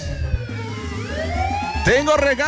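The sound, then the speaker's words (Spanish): A siren wails with a pitch that sweeps slowly upward, then wavers up and down in quicker swoops, loud and continuous throughout. “¡ah, caray! ¿Esa sirena qué es?”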